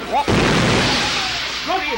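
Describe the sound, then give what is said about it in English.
A bomb explosion: one deep, abrupt blast bursts out and rolls on as a long, loud rumbling roar that slowly thins out. Short bits of voice come just before the blast and again near the end. “The bomb has gone off. The bomb has gone off.”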